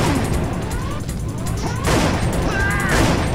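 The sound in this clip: Gunfire from the Time Crisis arcade light-gun video game: a loud, dense, continuous volley of shots and crashing effects that runs almost unbroken throughout.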